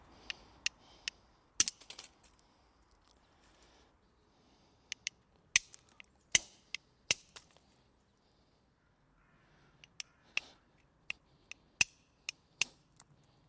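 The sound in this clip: Antler strikes the edges of stone while knapping replica arrowheads. Many sharp, dry clicks and snaps come in irregular bursts with quiet gaps between them, over a near-silent background.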